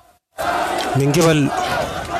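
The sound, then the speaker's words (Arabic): Students in a funeral procession chant slogans together. A loud crowd chant starts after a brief silence and holds steady, with a voiced, tonal rise in the middle. “وردد الطلاب المشيعون هتافات”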